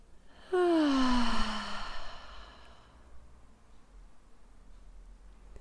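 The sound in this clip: A deep exhaled breath during a grounding breathing practice: one long, voiced sigh whose pitch falls steadily, then fades into a soft, airy tail, heard alone without talk.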